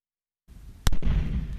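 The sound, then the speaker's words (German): Landmine detonated on site during mine clearance in Afghanistan: after a short silence and a low background rise, a single sharp blast cracks out, followed by a sustained rumbling roar. “Wieder haben sie eine Mine entdeckt. Noch vor Ort wird sie gesprengt.”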